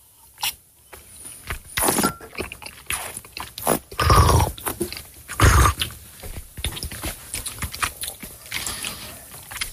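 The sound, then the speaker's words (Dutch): Wine is slurped while air is drawn in through it during a tasting. Wet, gurgling sucking sounds come in an irregular series, with two louder, longer draws in the middle among shorter ones. “En dan een beetje lucht aanzuigen. Sorry, dames en heren.”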